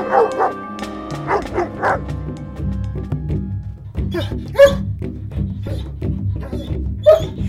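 Dog barking in a children's story about a dog journeying toward a treasure: a few sharp barks and yips over steady background music.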